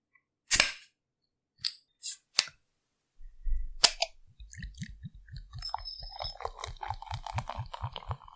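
A bottle of Bayreuther Hell beer is opened with a few sharp clicks and a pop, then poured in a rapid, rhythmic glugging stream with fizzing.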